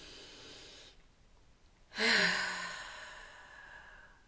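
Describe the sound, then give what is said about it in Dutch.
A deep breath in a guided relaxation exercise, in through the nose and out through the mouth. A faint inhale comes first, then a short pause, then a loud, slightly voiced sighing exhale that fades out slowly. “beginnen we met drie diepe ademhalingen. Je ademt naar je buik toe. In door je neus en uit door je mond.”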